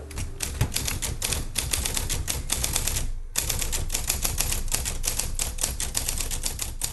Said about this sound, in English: What you're hearing now is the sound of a typewriter. More specifically, it's the staccato of a mustard yellow Sears Selectric 1 electric typewriter.